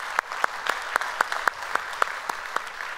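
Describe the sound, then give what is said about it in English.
A church audience applauding, heard as sharp, evenly spaced claps that stand out in a steady rhythm over a continuous wash of clapping. “If you would, here at North Garnett, put your hands together, welcome them into our time of study here today.”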